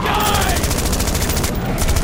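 Rifle gunfire in a rapid, continuous burst of closely spaced shots, loud and dense throughout the two seconds with no clear gap between rounds.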